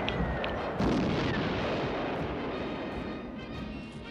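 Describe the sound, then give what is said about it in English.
Bombs explode during a wartime air raid on London as a deep, continuous rumbling roar swells heavily around the first second, then slowly fades while staying faint overall. “The intense bombing campaign by Nazi Germany against Britain sadly continues tonight.”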